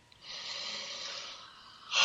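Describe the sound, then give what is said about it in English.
A slow breath drawn in through the nose during a guided breathing exercise. The inhale is a soft, airy hiss lasting about a second, and a brief louder breathy burst follows at the end. “And breathing in again, my breath nourishes me.”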